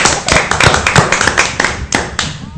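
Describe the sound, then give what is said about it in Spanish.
Studio applause with irregular clapping and tapping, loud sharp hits arriving in uneven clusters over a couple of seconds, some thumping strikes among them and no talk over it. “Un fuerte aplauso para Gustavo Martínez.”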